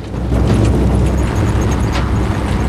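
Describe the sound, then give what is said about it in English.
A convoy of army Humvees drives along a winding desert track, churning up dust. A loud, continuous low rumble and roar of engines and wheels holds steady throughout. “A convoy of army vehicles make their way along a winding desert track. Plumes of brown dust are churned up by the wheels of the Humvees.”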